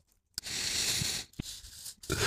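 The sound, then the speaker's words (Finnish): Scratchy paper sounds of an answer being written during a quiz come in a few soft stretches of rustling, broken by brief pauses. “Okei, anna mä kirjoitan ennen.”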